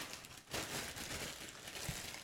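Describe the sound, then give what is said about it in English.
A mailed package is torn open by hand, with faint, sustained rustling and crinkling of paper or plastic after a short quiet start, the tearing noise holding fairly steady to the end. “Rip that thing open. And while you rip that open, I'll rip this open.”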